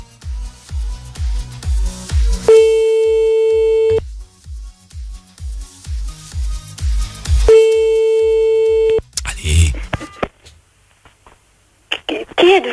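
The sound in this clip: A telephone busy signal heard when calling someone back after a cut-off call: a regular pulsing beep repeating many times, twice broken by a long steady tone, then brief noise and talk at the end.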